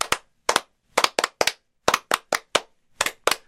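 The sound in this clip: Sharp hand claps sound during a radio program. A dozen or so crisp, separate claps arrive at an uneven pace, loud and dry, with silence between them.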